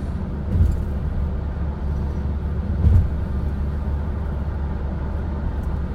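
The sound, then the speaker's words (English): Steady road and engine rumble from a car speeding up to overtake on a dual carriageway. It forms a low, even drone broken by two brief low thumps, and no one speaks. “speeding up here, because we're on a bit of dual carriageway, overtaking this Vauxhall Corsa with a very cautious driver.”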